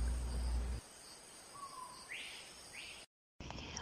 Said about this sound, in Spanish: Esa soy yo. La maravilla de la naturaleza, la única, e inigualable, oropéndola.